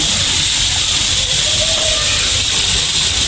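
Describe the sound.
Water boiling on a briquette-fuelled stove gives a steady, fairly loud hissing rush that continues without breaks throughout.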